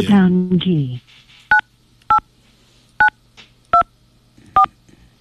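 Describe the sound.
Telephone keypad dialing tones while calling back a caller whose line dropped: a voice speaks briefly, then five short, clean beeps follow at uneven intervals.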